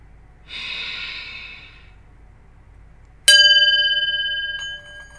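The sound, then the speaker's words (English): A single long, deep breath, drawn in and let out as a slow, breathy rush, followed after a pause by a bright chime that rings out and fades gradually. “Take a deep breath in and let that go.”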